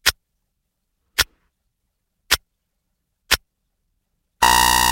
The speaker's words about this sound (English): This is the sound of the 5 second countdown.